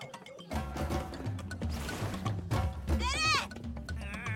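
A lamb gives a short, wavering bleat over a busy mix of other sounds.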